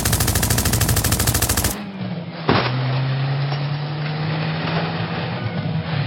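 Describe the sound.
Tommy gun fires a loud, rapid, continuous burst from a moving truck, then stops abruptly. A single sharp bang follows, and a steady low engine drone runs to the end.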